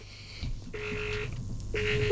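Telephone tones as a call is dialled: a brief high electronic tone, then two steady mid-pitched beeps separated by a short pause, clean and fairly quiet.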